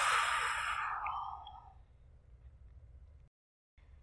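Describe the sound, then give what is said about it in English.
A deep, breathy exhale taken during guided relaxation: loud at first, it softens and trails off over about two seconds into quiet, followed by a brief silence. “Final breath. Inhale. And exhale to let go.”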